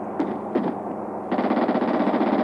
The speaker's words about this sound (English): Someone shooting.